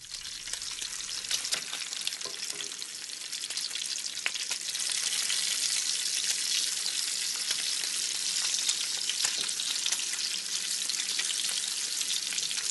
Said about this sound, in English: the number one most relaxing sound scientifically tested in the world, and again, you should be falling asleep to this, you should be waking up to it, bacon.